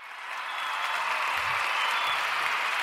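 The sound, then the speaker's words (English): A studio audience applauds to welcome a guest, a steady, even wash of clapping with no voices over it. “Please put your hands together, throw your mics and your headphones in the air for Tonatiuh.”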